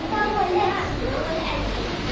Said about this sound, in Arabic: الأطفال في الأعلى، لو في واحد عندهم بس عشان ما يتكلموا